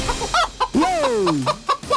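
A chicken clucks loudly in short bursts, with one long drawn-out squawk in the middle that slides downward in pitch before the clucking resumes.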